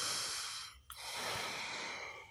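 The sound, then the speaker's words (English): A person takes a slow, deliberate breath as part of a meditation exercise: two long, soft airy breath sounds separated by a brief pause, quiet and with no talking. “The T being take a breath, which we can all do right now. Take a breath.”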